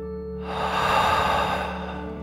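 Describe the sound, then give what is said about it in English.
A single deep, slow breath during a children's bedtime breathing exercise, one soft airy swell that builds and fades over about a second, with a steady low hum underneath. “Remember to breathe in through your nose and out through your mouth, like a dragon. Here we go. Deep breath in and out.”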